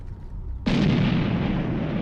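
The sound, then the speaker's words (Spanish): Artillery fire in a wartime barrage against Soviet positions: a low rumble gives way to a sudden, loud, sustained roar of blasts that continues to the end. “El 2 de octubre, la Operación Tifón comienza con un ataque de artillería contra las posiciones soviéticas.”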